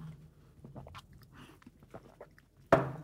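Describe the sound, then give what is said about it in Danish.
Someone eats grilled chicken, with faint, soft chewing and biting sounds followed by one sudden sharp, louder noise near the end. “Ej, men det smager jo pragtfuldt. Ej, det er jo. Tak. Ej, men hold det, kæft, det er så, det er så lykke. Jeg husker virkelig, jeg er lykkelig, når jeg spiser de her grillkyllinger.”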